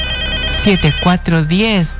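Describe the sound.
A telephone rings for an incoming call: a steady electronic ringtone with a voice heard over it throughout.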